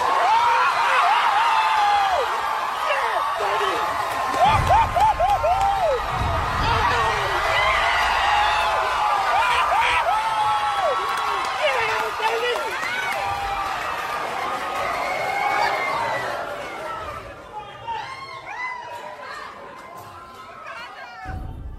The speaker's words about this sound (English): all the heroes of the entire Marvel Universe come to the rescue, one by one. No way! And the audience just goes wild.